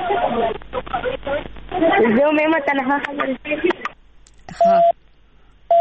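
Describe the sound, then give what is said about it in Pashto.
Talk over a telephone line during a call-in cuts off as the line drops, and short, steady busy-tone beeps follow the voices. “او د دې سره د دوی ټلیفون لاین کټ شو”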